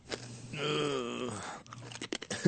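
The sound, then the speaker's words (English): Crunchy chewing of a crab with its shell, eaten from a bowl with cereal: a hummed groan comes first, then a run of sharp, brittle crunches, all fairly faint. “Actually, I will take a crab. Try a crab, and then try a piece of fish. Make it up for it. Here, you have to eat one crab and one fish. To not finish the bowl? Yeah. All right, here's a crab.”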